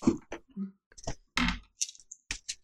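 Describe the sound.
Two six-sided dice rolled during a tabletop game, heard as scattered light clicks and clattering taps in several short bursts, with faint voices around them.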